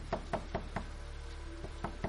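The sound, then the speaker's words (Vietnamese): Fists banging and feet kicking on a wooden door: faint, dull thuds come in two bursts, a quick run of knocks followed by a pause and then a few more. “tiếp tục đạp đẩy, đập tay vào cửa. Mở ra, mở ra, khốn kiếp chết tiệt.”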